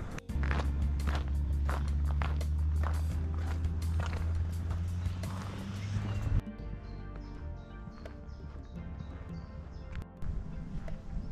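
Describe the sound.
Footsteps walk steadily outdoors across the grounds of a former colliery, a regular rhythm of crisp steps over a low, loud hum that drops away halfway through, leaving the steps more exposed.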